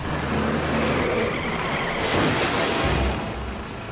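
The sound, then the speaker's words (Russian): A car skids across snow and slides into a snowdrift, giving a sustained gritty hiss of tyres over a low engine rumble. The sound surges midway, then eases off at the end, with no voices. “Машина заносит.”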